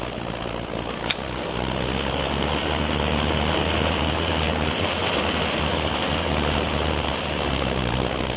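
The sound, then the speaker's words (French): A gas-fired copper cylinder heating a soldering iron tip in a workshop gives a steady, even, roaring hiss with a low hum beneath it. A single brief click sounds near the start. “c'est un cylindre un peu cuivré qui fonctionne donc au gaz, qui chauffe une panne.”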